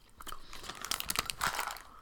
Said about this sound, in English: Do you not know how to eat with your mouth closed?